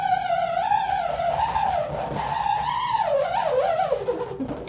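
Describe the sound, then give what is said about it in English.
A metal hex nut whirls around inside an inflated balloon, making a continuous eerie whine with many harmonics. The pitch wavers up and down throughout, then dips and frays near the end. “So this balloon has a hex nut in it, and when I get that hex nut to go for a ride,”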